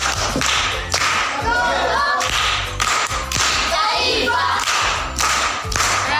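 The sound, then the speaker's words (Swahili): Schoolchildren in a primary school class give a rhythmic, patterned group clap for a pupil's answer: sharp, loud bursts of hands repeating in a steady beat throughout. “Makofi kwa mjomba.”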